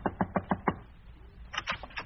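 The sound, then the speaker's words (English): Five quick, evenly spaced knocks rap on a door, sharp and even in loudness, then give way to fainter, indistinct sounds. “she disguised herself with a big hat and a veil and knocked at my door.”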